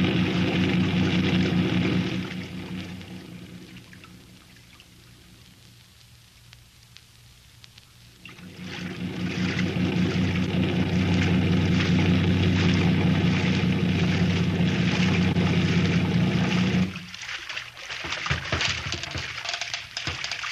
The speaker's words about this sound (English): Run the boat up alongside that old piling and tie her up